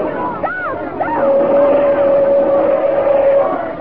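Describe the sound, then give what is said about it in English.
A car approaches along a narrow road crowded with people, giving a rough, broad rumble that swells slightly, with a sustained steady tone laid over it. Excited voices cry out at the start. “there's a car approaching”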